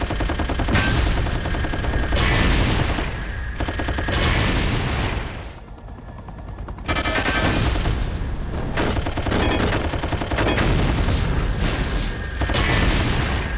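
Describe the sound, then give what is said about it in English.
Loud, dense machine-gun fire in a video game, a sustained rattling barrage that briefly drops away near the middle before resuming. “Rockets. Machine gun.”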